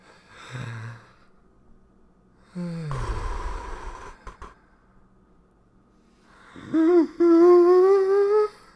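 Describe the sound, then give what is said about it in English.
Deep breaths taken before a didgeridoo-style hum by a person with laryngitis: a few heavy, breathy inhales and exhales, the last turning into a low voiced drone that rises slightly in pitch. “All right, so I'm going to take a couple deep breaths so that we can really get this wong going on.”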